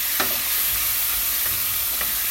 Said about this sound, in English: All right, lid is off our little zucchini, and I'm just stirring them around.